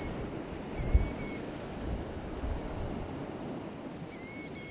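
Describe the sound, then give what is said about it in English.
Bird calls on the beach at East Beach, Point Pelee: two bursts of quick, high, repeated chirps, one early and one at the end, over a steady wash of wind and surf. “Huh, wonder what that bird was saying.”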